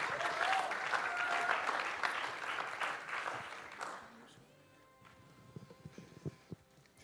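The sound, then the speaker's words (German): Applause from an audience at a church service for people who shared testimonies: dense, steady clapping for about four seconds that fades away to a few scattered claps. “Und auch hier dürft ihr den Mutigen gerne einen kleinen Applaus schenken für ihre Bereitschaft.”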